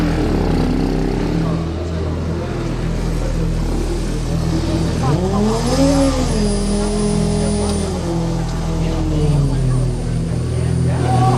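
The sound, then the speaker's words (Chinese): A race car engine, car number 29 at a motor race, restarting and revving: a steady droning idle under constant background noise, swelling into a rising rev around the middle before settling back. “好，29号赛车重新发动。”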